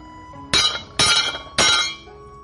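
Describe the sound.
Swords and sheaths clash in a fantasy martial-arts tale: three sharp, ringing metallic clangs, evenly spaced, each with a bright attack that rings briefly before dying away.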